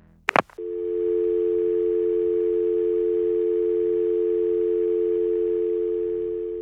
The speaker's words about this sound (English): Then the caller would hang up.